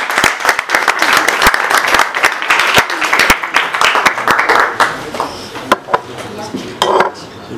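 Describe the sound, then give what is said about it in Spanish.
Applause at a book presentation on organic gardening: many sharp handclaps in a lively patter that thins after about five seconds into a few scattered claps. “Y damos un aplauso a Sara.”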